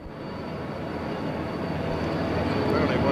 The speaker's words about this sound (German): Hubschrauber umkreisen diesen historischen Platz.